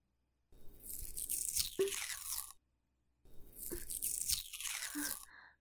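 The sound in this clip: Crackly tearing as stickers are peeled off a chocolate-coated dessert, heard in two separate bursts with a short silence between them.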